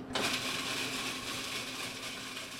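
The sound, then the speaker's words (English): An electric grinder whirs as it grinds candy cap mushrooms for an ice cream custard, starting abruptly and holding a loud, steady motor drone with a constant pitch to the end. “begins the process by grinding up the candy cap mushrooms”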